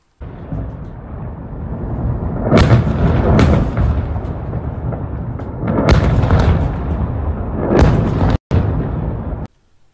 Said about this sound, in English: posted a video purportedly showing a missile attack on the U.S. consulate in Iraq and wrote, "According to multiple sources, a number of missiles were fired towards Erbil, where there is a U.S. General Consulate base." Let you watch this video.